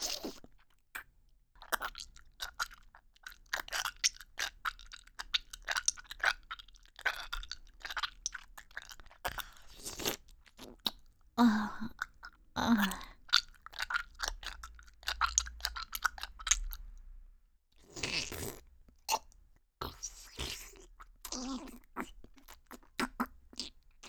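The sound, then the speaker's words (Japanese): Chewing and eating food, with many crisp crunchy bites and soft mouth sounds in a steady, irregular stream. No one speaks. “おいしいからどんどん食べちゃう。”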